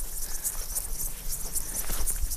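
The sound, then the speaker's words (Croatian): Grasshoppers chirring in a flower-filled meadow, bright high-pitched insect buzzing in rapid repeated pulses, with a steady soft background underneath. “na predivnoj livadi punoj cvijeća leptira skakavaca”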